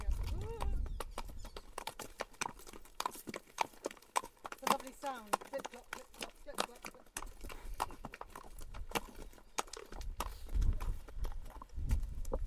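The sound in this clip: Horses' hooves clip-clop steadily as riders follow a path leading down to a beach, many uneven hoof strikes in a continuous walking rhythm, with occasional voices.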